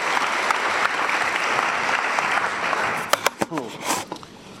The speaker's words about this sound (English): So if everyone can give another round of applause for Peter Williams.